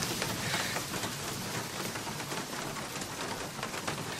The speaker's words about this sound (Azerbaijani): Gör necə de yağış başladı birdenbire.